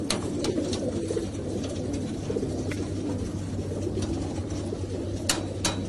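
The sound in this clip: Pigeons coo in soft, low, repeated calls that murmur steadily throughout, with a few brief sharp clicks scattered over the top.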